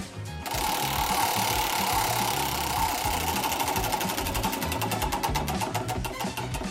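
Rapid, steady mechanical ticking of a spinning prize wheel, a dense rattle of clicks that continues throughout and grows more distinctly separated toward the end.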